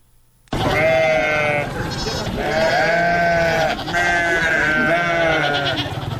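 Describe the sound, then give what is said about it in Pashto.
Goats of the Indian Gulabi breed bleat on a small farm of forty goats in Kandahar's Panjwai district. Several loud, wavering bleats overlap and follow one another almost without pause. “د کندهار پټن ولسوالۍ کې د بزو یا وزو په دې کوچني فارم کې د ګلابي په نوم هندستاني نسل څلويش بزې ساتل کیږي.”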